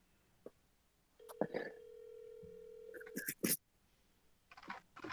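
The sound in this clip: Phone call ringing out: a faint click, then a steady electronic tone held for about two seconds with a second, lower tone joining it, followed by short bursts of electronic beeps.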